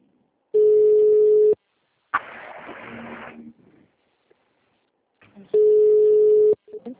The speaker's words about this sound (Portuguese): Não, tem alguém ligando para alguém. Quem está ligando aí?